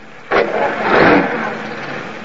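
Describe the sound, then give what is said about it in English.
A workman's car drives away. Its engine noise kicks in abruptly, swells to a broad, rushing roar near the middle, then eases slightly while staying steady to the end. “The last of the workmen leaves in his car.”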